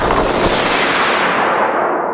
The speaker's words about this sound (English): You blast the rock and underneath there is just more rock.